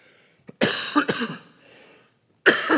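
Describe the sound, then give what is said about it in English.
A person imitates someone clearing his throat: a brief click, then a rough, raspy burst, a faint breathy tail, and a second harsh rasp at the end. “he cleared his throat just like that.”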